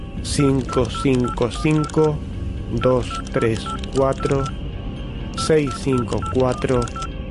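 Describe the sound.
Keypad tones as a telephone number is dialed: three quick runs of short, bright, melodic beeps, separated by brief pauses.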